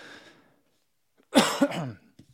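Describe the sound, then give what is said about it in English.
A cough from someone with a head cold, one loud, harsh burst with two quick pulses, set between stretches of near silence. “Still got some coughing from that head cold.”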